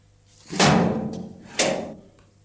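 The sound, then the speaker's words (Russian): A heavy metal door of a hospital ward is opened, giving two loud, dull thuds about a second apart. Each thud has a clanking ring that fades slowly. “Открывают металлическую дверь палаты. Заводят туда Ивана.”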